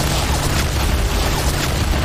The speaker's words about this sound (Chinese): 蒋娃的炮火太厉害了，把他们该修的碉堡全炸了。